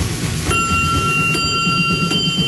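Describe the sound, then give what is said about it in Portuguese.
A bell rings, struck three times in under two seconds. Each strike leaves a bright, sustained ringing tone over steady background noise. “Bateu o sino, vai começar a catequese.”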